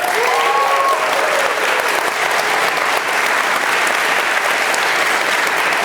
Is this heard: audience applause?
yes